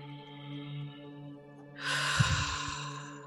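A deep breath in during a guided meditation, a soft rushing inhale that swells partway through over a low, sustained musical drone.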